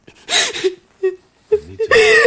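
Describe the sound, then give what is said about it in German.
A woman cries and whimpers in a German drama scene, with short wavering sobs, high whimpers and catching breaths coming in uneven bursts, loud and close. “Du wein doch nicht. Nicht weinen.”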